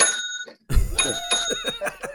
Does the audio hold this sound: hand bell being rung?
yes